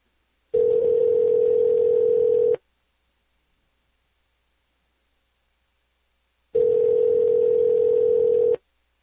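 Telephone line tone while calling a number: two steady, even beeps, each about two seconds long, separated by a long stretch of silence.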